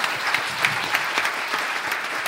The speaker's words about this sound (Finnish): Aplodit.